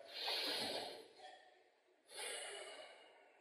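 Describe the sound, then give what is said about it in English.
A big, deep breath, heard as two long airy rushes of breath separated by a short gap, fairly soft and without talk. “Let's just take another big breath.”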